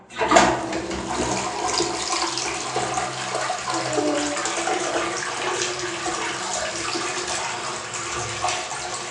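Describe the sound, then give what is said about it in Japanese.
Toilet flushing: a loud rush of water surges in abruptly and keeps pouring as a steady, hissing gush for the whole nine seconds. “ズボン上げて流します。”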